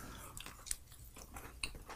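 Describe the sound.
Faint crunchy bites and chewing of a cookie, with a few brief crisp crunches standing out over soft, continuous mouth noise.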